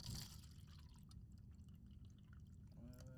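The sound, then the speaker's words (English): Coffee, apparently French press, pours into a cup in a steady liquid stream that runs continuously for about three seconds over a low, full rumble. “hold on, pouring coffee here. Where's your cup?”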